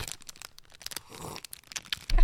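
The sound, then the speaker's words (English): Quiet crinkling and crackling while someone eats fruit snacks: an irregular series of sharp clicks and rustles, with a louder low burst right at the end. “you caught me in the middle of eating my fruit snacks”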